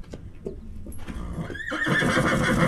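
A lonely horse in a barn in North Ridgeville whinnies loudly. After a few short, soft sounds, a rough neigh with wavering, sweeping pitch swells into a sustained, strident cry that grows louder toward the end.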